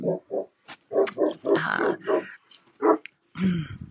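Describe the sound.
A dog makes many short, low, gruff grunting barks in quick uneven bursts, with brief pauses between the clusters.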